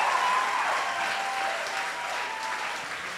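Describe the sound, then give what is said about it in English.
An audience claps steadily and makes noise, the applause loud and even at first, easing slightly and then holding at a constant level. “So put your hands together and also make some noise.”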